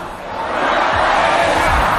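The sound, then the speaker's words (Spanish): A large crowd chants the song for footballer Cucurella, the chant from the Euro championship two years earlier, at a public gathering. It is a dense, loud roar of many voices that holds steady throughout. “uno gracioso con Cucurella animando al público a cantar la canción que le acompañó hace 2 años en la Eurocopa.”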